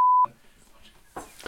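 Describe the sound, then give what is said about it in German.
A censor beep covers a word: a single short, steady high-pitched tone lasting about a quarter second. A few faint, brief noises follow. “das muss ich jetzt wirklich piepen”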